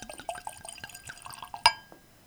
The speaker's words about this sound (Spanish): Lo primero quizás sería servir el caldo que hemos traído